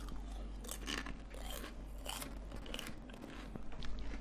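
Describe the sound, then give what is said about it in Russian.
Crunching on chips, heard over a phone call: faint, irregular crisp crunches and bites, repeated several times over a steady low hum. “Ты меня еще ругал, что я хрумкаю. Вы что, там жрете, что ли? Чипсы жрут или что-то”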